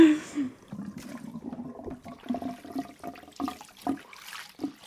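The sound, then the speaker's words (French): Water rushes and splashes as plant-dyed fabric is rinsed in clear water with a little Marseille soap. A loud gush opens, then lighter splashing continues under a talking voice. “Je vais le rincer à l'eau claire avec un petit peu de savon de Marseille pour enlever justement l'excédent de teinture et aussi les résidus de graines.”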